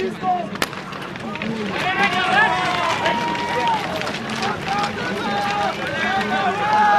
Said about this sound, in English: And they're off. About 150 racers are running up the hill on skis with backpacks.